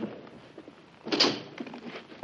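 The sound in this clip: A door being opened in a Second World War adventure drama: a single short, soft scraping thud over low background noise.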